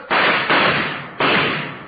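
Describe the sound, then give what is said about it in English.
Gunshots in a radio-drama shootout: a few sharp, loud, muffled bangs, each trailing off in a short, rough decay. “Hold it up. Don't shoot anymore. I give up. I give up.”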